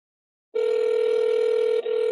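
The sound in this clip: A telephone dial tone sounds while calling American football teams, switching on abruptly and holding as one steady, loud, evenly pitched tone, broken by a single brief dip before it resumes.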